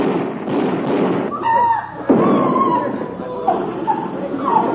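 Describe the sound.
A gunshot in a film scene rings out as one sharp, loud bang with a brief tail, with voices heard before and after it.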